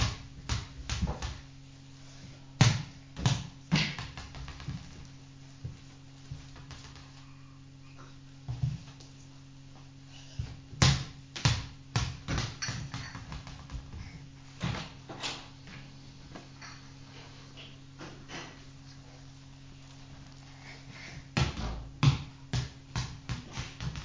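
A ball bouncing, heard as many irregular, fairly quiet thuds that come in scattered clusters with quiet gaps between them.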